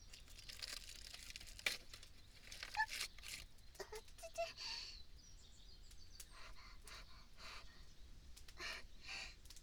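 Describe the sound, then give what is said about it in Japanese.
Aluminium foil crinkles and tears as it is peeled off, making a quiet, continuous rustle broken by a few sharper crackles. “ではこのアルミホイルを剥いてと。”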